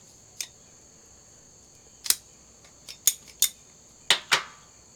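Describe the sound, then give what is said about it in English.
Sharp snips of a cutter clipping the cap off a Shady Moose Toro cigar: about seven crisp, bright clicks come in uneven pairs and singles against a quiet background. “Anyway, I'm gonna go ahead and cut the cap and let's see how it is.”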